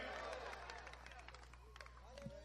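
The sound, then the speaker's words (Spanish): A church audience applauding: a quiet, even patter of many hands clapping, mixed with crowd voices over a constant low hum. “Dele fuerte esa gloria a Dios, pues, y ese aplauso a su nombre.”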